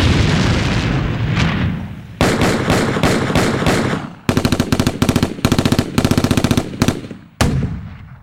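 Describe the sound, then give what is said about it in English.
Military gunfire from a sound effects library: loud, rapid machine-gun bursts that rattle almost continuously, broken by short gaps, then a final burst near the end. “And, of course, my personal favorite, military sound effects.”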